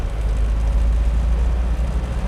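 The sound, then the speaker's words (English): Steady low rumble inside a 1996 Geo Tracker driving along the Coal River, a car with a fault that makes it rattle. The drone runs without a break, heavy in the bass, with rougher grainy texture above it. “Colt Brogan drives me along the Coal River in a 1996 Geo Tracker. That rattling you hear? There's something wrong with his car, he mutters”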